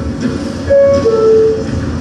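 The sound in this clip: Subway train standing in a station: a low, steady mechanical rumble with a clear high-pitched tonal whine that rises out of it midway and then fades back.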